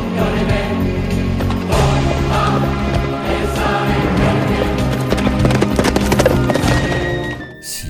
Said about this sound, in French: Imaginez ce cavalier revêtu de sa cuirasse, galoper le long de nos routes